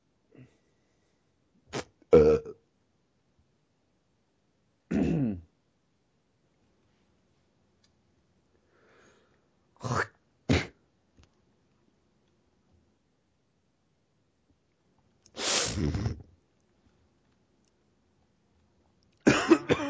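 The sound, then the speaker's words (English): Several real coughs and throat clearings, each a short rough burst separated by long silent stretches, fairly faint and with no talk. “I wasn't sure if you were doing a more in-depth sound of coughing”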